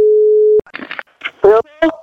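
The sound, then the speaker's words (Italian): Telephone tone heard while placing a call: a single steady, low-pitched hum held for about half a second, cutting off abruptly before voices start talking. “Andiamo a chiamare, vai telefono”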